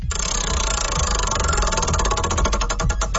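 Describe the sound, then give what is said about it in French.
A prize wheel spun on a radio show rattles with rapid, even clicks over a low hum, the ticks spreading farther apart toward the end as the spin slows. “on va te faire tourner la roue puis on va voir quel sera ton privilège ce matin”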